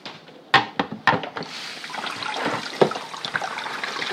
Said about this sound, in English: Wash the cabbage. Oh, cabbage. Let me wash you.